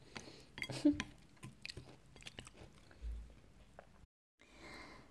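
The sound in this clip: Chewing and biting while a meal is eaten: many soft, crunchy mouth clicks in an uneven rhythm, faint and quiet, with a brief pause near the end before the chewing resumes.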